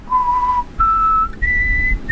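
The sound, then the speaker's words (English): A person whistling a few clear, sustained notes that step upward in pitch, bright and fairly loud, with no talking. “I've got a degree in whistling. I'm really good at it.”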